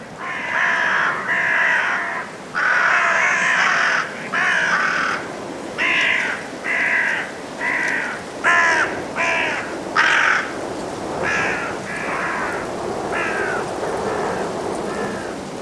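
Carrion crows cawing as they head to roost at dusk in Woodchester Park, Gloucestershire, England: many harsh, repeated caws in an uneven rhythm over a steady hissing background.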